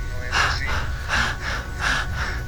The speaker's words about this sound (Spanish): Quien respira como yo lo estoy haciendo